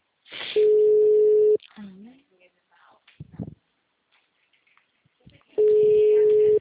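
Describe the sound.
Telephone ringback tone while a call is being placed: two steady, mid-pitched tones about a second long, separated by a few seconds in which people talk.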